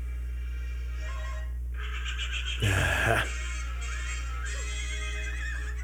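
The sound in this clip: A horse in an animated film scene gives a brief, loud neigh lasting about half a second. A steady low hum and soft tonal background sounds run underneath.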